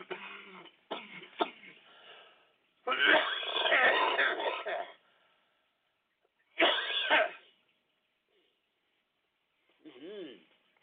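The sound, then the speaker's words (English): Harsh, wet coughing and throat clearing as someone brings up phlegm. A few rough bursts come with silent gaps between them, and a short voiced groan follows near the end. “it's good just barfing up all this phlegm”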